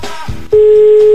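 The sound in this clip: A radio station's telephone line calling a listener: a short noisy burst, then a loud, steady single-pitched line tone that holds without a break to the end.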